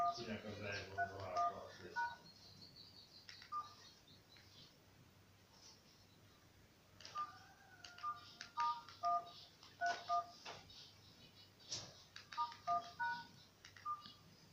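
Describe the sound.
Keypad tones beep as a number is dialed on a phone, sounding in several quick clusters of short, clear beeps separated by pauses, with a person talking quietly in between.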